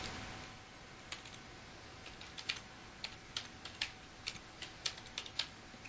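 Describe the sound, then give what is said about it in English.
Keystrokes as an address is typed on a computer keyboard: many faint, sharp clicks in an irregular rhythm over a low hiss, sparse at first, then quicker and denser toward the end. “And I'm going to type in the address for you.”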